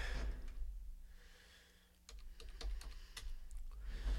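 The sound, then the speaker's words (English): Keys clatter on a computer keyboard as call numbers are typed in, a quick run of many faint clicks in the second half over a low steady hum. “I had to type in the call numbers for the show again.”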